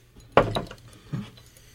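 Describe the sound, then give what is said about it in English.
An ice cube drops into a glass of absinthe, giving a sharp glassy clink and a quick second clink, then a softer knock a moment later against a quiet background. “As you can see, the ice is melted, and we just take a cube, drop it in there.”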